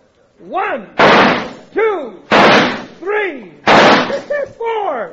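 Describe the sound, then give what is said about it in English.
Gunshots fired in a target-shooting contest: three loud, sharp blasts spaced over a few seconds, each with a brief decaying tail, and other sounds between the shots. “All right, cut the talk and shoot”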